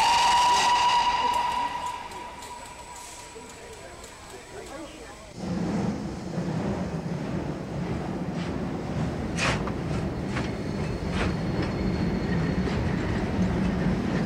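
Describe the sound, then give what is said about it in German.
A train pulls out of a station as an express service to Edinburgh departs. A high whistle-like tone opens, then a broad, steady rumble of the moving train fills the rest. “Express nach Edinburgh über Cambridge, Lincoln, Doncaster, York und Newcastle bitte einsteigen und die Türen schließen. Der Zug fährt ab.”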